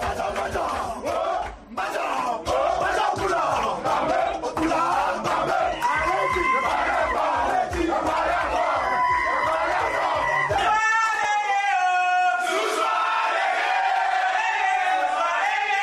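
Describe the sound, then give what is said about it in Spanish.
A stadium crowd roars, chants and whoops as Cameroon's host national football team enters for an Africa Cup of Nations match. Then Burkina Faso's team celebrates reaching the semifinals with loud, tuneful group singing. “La selección de Camerún, la anfitriona, entrando al estadio en uno de los partidos que ha tenido que jugar en esta Copa de África, y después la selección de Burkina Faso, celebrando su pase para semifinales.”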